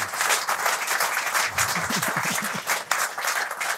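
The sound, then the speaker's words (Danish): Warm audience applause greets a guest being welcomed, with dense, steady clapping at an even level throughout. “Giv ham også en varm hånd.”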